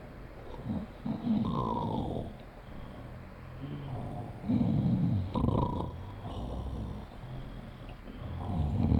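A sleeping person snores: several rough, rattling snores in a slow rhythm, with quieter breathing between them.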